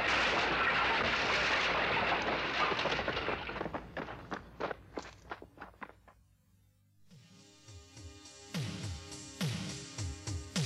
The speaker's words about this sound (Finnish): Kone räjähtää, paetko!